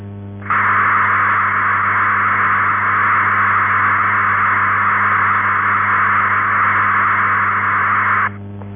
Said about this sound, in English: A continuous data transmission at 1,200 bits per second sounds like this.